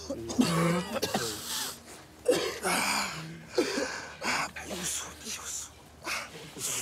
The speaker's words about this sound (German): Husten ist so.